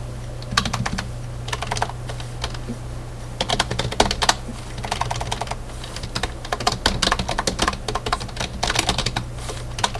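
Computer keyboard typing, a rapid, uneven clatter of key presses that comes in bursts with short pauses throughout, over a steady low hum.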